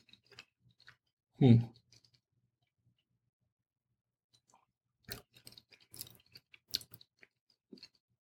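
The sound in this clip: Chewing on cheddar cheese made with Parmesan: soft, moist crunches come in scattered bursts, one fuller bite early on and then clusters of quieter chews and small clicks.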